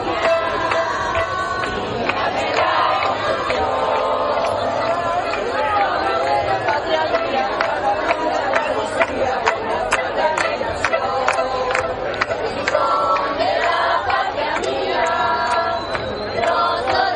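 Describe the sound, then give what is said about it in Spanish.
Dense crowd voices at the Gibraltar border line, where people reportedly sang their anthem: a steady, loud babble of many overlapping voices that carries on without pause. “mientras que desde el lado de la línea se escuchaba a la gente corear su himno”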